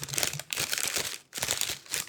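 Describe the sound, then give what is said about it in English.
Crinkly rustling of a period pad wrapper being opened in a public restroom, loud crackling bursts broken by two brief pauses. “please, Jesus, somebody, could you just find a fucking way to make opening a pad wrapper silent? Could you just cut out? Listen.”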